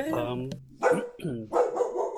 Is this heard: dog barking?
yes